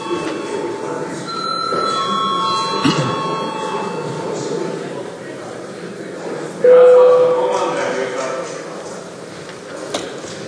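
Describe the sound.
An electric bell or buzzer calls deputies to register their attendance in a parliament chamber. Partway through, it starts as a loud, steady, ringing tone over a background murmur of voices and room noise.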